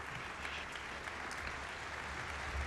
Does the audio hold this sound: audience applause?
yes